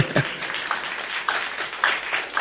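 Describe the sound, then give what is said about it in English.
A church audience applauding: uneven, scattered clapping at moderate volume, with no talk over it. “God has done well. Hasn't he done well? Let's clap for Jesus.”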